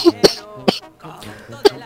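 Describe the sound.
A few short, sharp coughs from people in a group, spaced unevenly with pauses between them, with faint voice sounds in the gaps.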